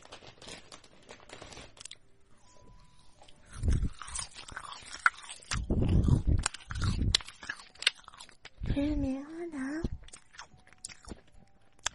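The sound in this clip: Marshmallow being bitten and chewed, soft crunchy bites and smacking chews in irregular bursts, with voices talking in between.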